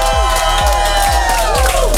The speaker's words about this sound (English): live in a studio with an amazing crowd